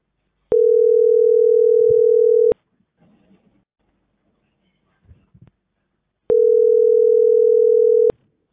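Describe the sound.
Ringback tone of an unanswered phone call: two long, steady, buzzing rings about two seconds each, separated by a pause of roughly four seconds, with faint rustling in the gap.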